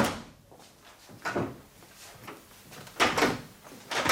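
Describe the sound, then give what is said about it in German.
Someone tries to open a locked door without turning the key, making a few short bursts of rattling and thumping handle and door noise separated by quieter stretches, with no talk. “Jetzt gucken wir mal, ob ihr die Tür aufkriegt. Aber warum soll ich die Tür nicht aufkriegen? Ohne den Schlüssel umzudrehen.”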